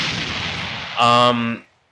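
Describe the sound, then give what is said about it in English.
A bomb explosion sound effect: a loud, noisy rushing burst that swells into a brief buzzing, tonal blast before cutting off sharply into silence. “drop a motherfucking bomb for the sports talk.”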